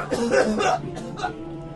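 A cough or sneeze bursts out in a few harsh, breathy blasts, loudest in the first moments, then trails into quieter rasping sounds.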